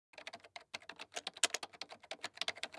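Rapid typing on a computer keyboard by someone writing a novel: a quick, irregular stream of many soft keystrokes, faint and heard alone.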